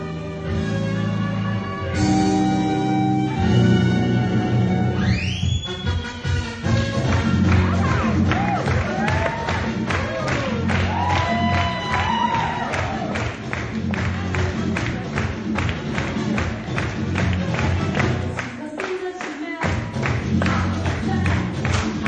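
Football stadium crowd in Brazil cheering, a dense continuous roar with clapping and drum-like thumps running throughout, preceded by sustained tonal passages at the start.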